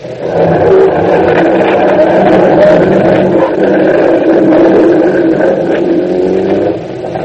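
A car engine revs loudly as the vehicle drives off, a continuous mid-pitched roar that holds steady throughout before easing slightly at the very end.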